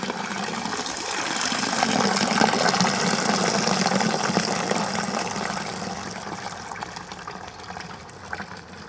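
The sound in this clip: Water of a town fountain on a square splashes and gushes in a steady, broad rush that swells early and then slowly fades a little toward the end, with no voices.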